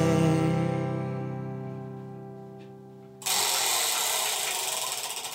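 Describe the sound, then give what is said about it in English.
A prize wheel is spun, giving loud rapid clattering ticks that loosen and slow toward the end, after a sustained droning tone that fades. “I'm going to spin the wheel of eight”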